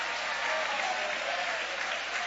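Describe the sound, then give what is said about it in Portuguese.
A church audience applauds, a steady, even wash of many hands clapping at fairly soft, constant volume with no voices rising above it. “Levante a sua mão e vai aplaudindo o nome dele.”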